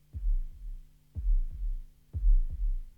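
Heartbeat sound effect at 60 beats per minute: three deep, low lub-dub double thumps, each pair about a second apart, steady, with no other sound.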